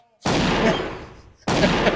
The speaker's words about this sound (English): You just like pull out your gun and fire it into the ceiling.